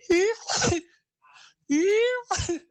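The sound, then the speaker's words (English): A voice imitates a sneeze twice, each time a rising voiced 'ah' that breaks into a sharp, noisy burst, with a brief faint sound between the two. “The thing that irritates me the most with my partner is her sneezing. She'll be like,”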